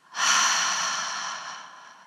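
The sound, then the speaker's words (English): A forceful exhalation through the mouth during a tense-and-release meditation breathing exercise, heard as a sustained airy whoosh that is loud at first and gradually fades, with no talk. “we'll release that tension with a double exhalation through the mouth. So empty the lungs and then double inhale. Tense the body and hold the breath. And then double exhale.”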